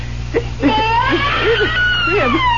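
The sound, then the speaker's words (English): Baby crying in a hand-carved crib: several wavering, whimpering wails rising and falling in pitch, loud over a constant low hum. “Marion, tell me you hear what I hear. A baby crying right here in this crib.”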